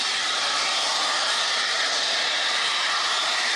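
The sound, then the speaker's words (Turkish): Natural gas jets from a pipe punctured during work in Başiskele, Kocaeli, making a loud, steady, rushing hiss-roar. It holds even throughout with no breaks and no voices. “Başiskele ilçesinde çalışma sırasında doğal gaz borusunun delinmesi paniğe neden oldu.”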